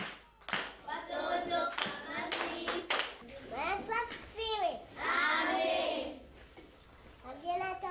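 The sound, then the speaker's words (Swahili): Many children clap their hands in quick bursts during a children's Bible lesson. Their voices chatter and call out between and over the loud claps. “Mpigieni makofi.”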